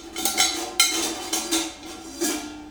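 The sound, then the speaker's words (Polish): Metal pan or rack clinking as it is lifted out of a combi cooker with oven mitts, with several light metallic clinks and scrapes spread unevenly, fairly faint, no talk. “Więc lepiej chwycić taką patelnię albo ruszt za pomocą tych łapek.”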